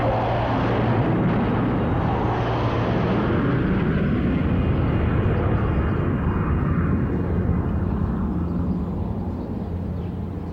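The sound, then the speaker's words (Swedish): Three Gripen fighter jets fly past on their way home to F21 air base, making a continuous loud roaring rumble that holds steady before easing slightly at the end. “Du vill säga något tillbaka, men just då flyger 3 Gripen förbi på väg hem till F21.”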